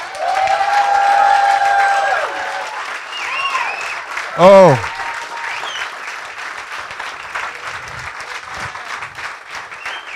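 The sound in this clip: A church audience cheers and applauds in a steady wash of clapping with scattered whoops that lasts throughout, while a voice speaks over it.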